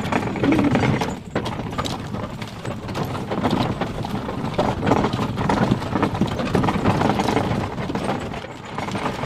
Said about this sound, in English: The horses.